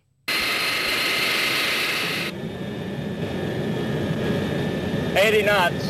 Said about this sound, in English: Let's back it up a little bit and start with this takeoff roll and listen.